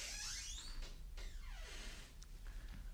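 A door in a radio drama creaks open with faint, drawn-out squeals whose pitch glides downward, heard alone.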